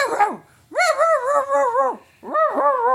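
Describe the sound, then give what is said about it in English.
A dog gives an odd, high-pitched, wolf-like bark, repeated three times as drawn-out, wavering yowls, loud with brief gaps between them. “And he has the most retarded sounding bark. He doesn't bark, he wolfs.”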